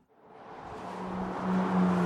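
Traffic on a busy stretch of Interstate 85 between Greenville and Spartanburg, a broad rushing road noise with a low engine hum that swells steadily louder as a vehicle approaches.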